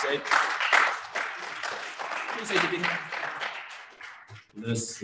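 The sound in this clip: Audience applause for a guest as he is introduced, a steady wash of clapping running the full length under overlapping voices.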